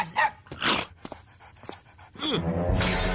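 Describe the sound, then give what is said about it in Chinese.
A small cartoon dog whimpers and yips in a few short, high, wavering cries with brief gaps between them, ending in a longer, louder whine. “小狗，你给我走开，走开呀！”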